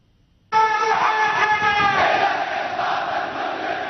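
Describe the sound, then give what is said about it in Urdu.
Protesters in eastern Saudi Arabia chant slogans against the Saudi royal government. After a brief silence, a loud, sustained mass of voices erupts abruptly and carries on, easing only slightly toward the end. “سعودی عرب کے مشرقی علاقوں میں مظاہروں میں شریک لوگوں نے سعودی شاہی حکومت کے خلاف نعرے لگائے اور تمام سیاسی قیدیوں کی فوری اور غیر مشروط رہائی کا مطالبہ دہرایا۔”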